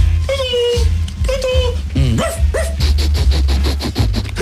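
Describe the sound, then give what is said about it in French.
A dog barks and yelps in a quick series of short, high, tonal calls, some bending upward in pitch, over a steady low background. “Oh, que drôle, ça va être horrible, mon chien va vous flairer.”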